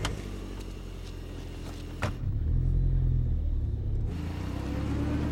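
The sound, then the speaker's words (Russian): A car engine starts with a brief click, then settles into a low, steady rumble that swells slightly as the car reverses. “Потом тоже садится в авто. Машина сдает назад.”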